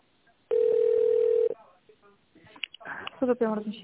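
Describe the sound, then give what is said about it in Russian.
A steady single telephone line tone holds for about one second while a call is transferred. A voice then begins speaking on the line. “Я вас сейчас переведу на менеджера.”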